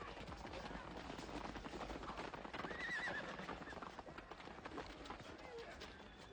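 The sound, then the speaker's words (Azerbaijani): Horses in battle neigh sharply over a dense, continuous din of galloping hooves, with a noisy, churning clash that stays loud throughout. “Bir ayrısı da neyzə ilə ona həmlə etdi və nəhayətdə Həbib ibn-i Məzahir atdan yerə yəndi.”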